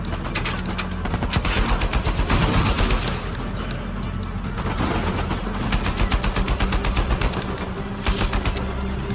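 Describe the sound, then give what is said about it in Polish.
Rapid gunfire in a video game: continuous automatic bursts crackle densely for about nine seconds, loud and sustained with only slight dips in intensity and no voices. “Kurde, strzelaj, człowieku, strzelaj!”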